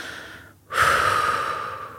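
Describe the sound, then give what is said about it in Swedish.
A deep, audible human breath in through the nose and out through the mouth: a softer intake, then a loud, long, airy exhale that slowly fades. “Och så tar vi alla ett djupt andetag. Fyller lungorna. In genom näsan och ut genom munnen. Med ett ljudligt.”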